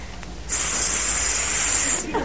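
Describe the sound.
A swan-like hiss: one sustained, breathy, high-pitched hiss lasting about a second and a half, heard alone after a brief quiet start.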